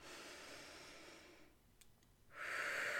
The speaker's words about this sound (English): So the B is first to breathe, okay? Take a deep breath.